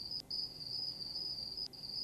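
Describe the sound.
Cicadas sing at night in a steady, shrill, high-pitched drone that runs almost unbroken, with two brief dropouts, over a faint low hiss.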